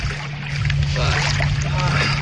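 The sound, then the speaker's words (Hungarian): A boat speeds up on the water in windy, rough conditions. A steady low engine drone runs with a broad rush of water and swells slightly louder early on, continuing without a break. “Most nagyon megy. Jó, jó gyorsul a hajó.”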